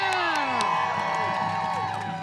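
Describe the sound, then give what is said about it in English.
Loud, sustained cheering from a crowd at a street rally, with whoops and whistle-like shouts rising above a steady roar that continues throughout. “Give yourself a round of applause for being here.”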